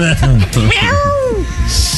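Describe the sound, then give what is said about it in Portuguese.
A cat yowls after its tail is stepped on: a loud, drawn-out cry that arches up and then falls in pitch, amid other voiced sounds. “Levanto, piso no rabo do gato.”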